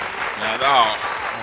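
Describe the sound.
Canned applause from a show's applause button, a noisy burst of crowd clapping with a voice speaking over part of it, swelling briefly in the middle.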